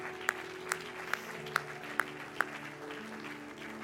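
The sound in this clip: Faint applause from a church audience welcoming guests: a soft, even wash of clapping with six sharper, evenly spaced clicks standing out above it before the sound thins toward the end.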